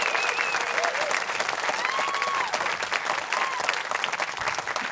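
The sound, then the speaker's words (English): Audience applause at a live storytelling event: thick, continuous clapping that holds at a steady level from start to finish, with a few whoops rising above it. “Can we give him one more round of applause?”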